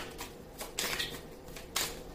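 Tarot cards shuffled and drawn for a reading: a few soft, papery riffles and slides of card stock in short bursts.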